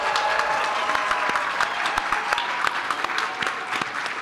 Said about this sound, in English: Now, put your hands together and welcome your moderator, Brittany Martin.